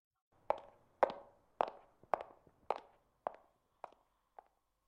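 A person's footsteps walking away: a steady series of sharp, even steps, roughly eight or nine, that grow gradually fainter until they fade out, with no talking.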